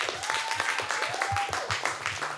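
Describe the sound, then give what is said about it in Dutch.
Applause for a student team's school project pitch against racism: dense, steady clapping with sharp crackling hits that carries at an even loudness through the whole clip. “Groot applaus voor Jong Geleerd is oud gedaan!”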